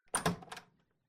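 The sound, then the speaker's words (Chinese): A house door being opened gives a short burst of clunks and rattles, a few quick knocks of wood and latch in under a second, that fades rapidly into quiet. “怎么这么半天才开门啊？”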